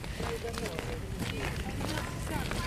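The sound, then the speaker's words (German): Footsteps on the winding paths up to the Gloriette in Schönbrunn palace park, a steady patter of steps under continuous talking. “Mitten im Schlosspark Schönbrunn. Wir gehen jetzt die Serpentinen zur Gloriette rauf.”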